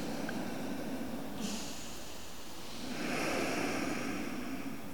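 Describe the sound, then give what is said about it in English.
Deep breathing in during a guided breathing exercise: a steady, airy rushing of drawn breath runs through the whole clip and swells louder near the end. “Continue to breathe in really deep.”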